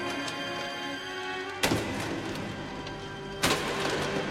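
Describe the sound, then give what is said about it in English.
A Japanese code machine is being destroyed. Two heavy, sharp impacts land a couple of seconds apart over a steady mechanical hum. “Sparks fly as a code machine is destroyed. The Japanese are also told, once you get this part, destroy your code machine.”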